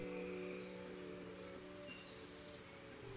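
Rainforest insects and tree frogs make a steady, dense chorus of droning tones and high chirps that continues without pause.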